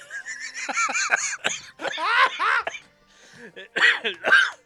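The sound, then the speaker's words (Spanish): Laughter that trails off into a cough: a few breathy, voiced laughing bursts, a short pause, then two harsher bursts at the end, moderately loud with no other sound. “Risa termina en tos.”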